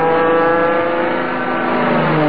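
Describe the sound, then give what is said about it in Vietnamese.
A motorbike engine revs at speed, giving a continuous buzzing harmonic drone with slowly shifting pitch and steady loudness, with no other sound over it. “Snow thấy bây giờ các đôi nam nữ học sinh sinh viên nhà mình toàn đi xe máy thôi. Phóng cứ phè phè.”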